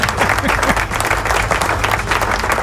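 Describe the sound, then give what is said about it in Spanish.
A burst of applause used as a sound effect, with many hands clapping in a dense, steady wash that stays loud and even throughout. “Si yo no pongo y no le digo a la computadora que los aplausos son aquí, aquí, y cuando de aquí salen, ahora sí.”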